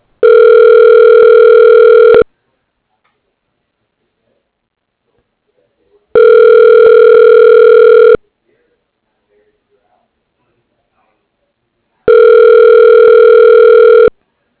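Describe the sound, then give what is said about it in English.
Ringback tones play as a phone call is transferred toward a voicemail line: three long, steady tones, each lasting about two seconds, separated by silent gaps of about four seconds, with no talking. “Let me transfer. Thank you. Please hold. Your call is important to us.”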